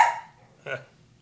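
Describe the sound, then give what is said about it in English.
A dog gives two short, sharp barks separated by a brief pause, each dying away quickly into near silence. “Oh, and there's the dogs, in case you missed them, too.”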